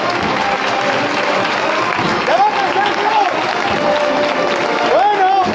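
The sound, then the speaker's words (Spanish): Applause rains down from sidewalks and balconies at a Holy Week procession in Jaén, a continuous, loud crowd clapping with voices rising over it at moments. “Llueven los aplausos desde las aceras, llueven desde los balcones.”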